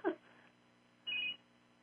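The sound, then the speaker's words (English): A cell phone rings with one short, bright electronic tone burst after a brief soft click at the start, faint and otherwise quiet. “my cell phone just rang. I was just turning it off when you said hopefully we'll have some calls. My cell phone started ringing.”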